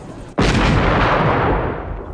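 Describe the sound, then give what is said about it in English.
A single gunshot fired as a last shot cracks out loud after a brief stretch of low background noise, then rings on in a long, slowly fading boom. “Oh dear, I'm down to my last shot. Camera C, Jimmy. Before I fire my last shot”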